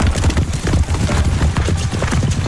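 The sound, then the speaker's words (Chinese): Hooves of three horses gallop along the top of an ancient city wall in the rain, a loud, continuous drumming of clip-clop beats that runs the whole clip without a pause. “那巍然兀立的黑沉沉的城墙上急急地奔跑着三匹马”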